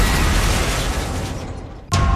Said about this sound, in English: Coming up, the big crack sinking right in there. We might be going through the ice.